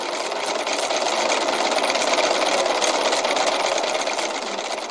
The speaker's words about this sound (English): The ticker's name came from the sound of the type wheel as it pressed out the endless chains of letters and digits. If you've never heard one before, it sounds like this.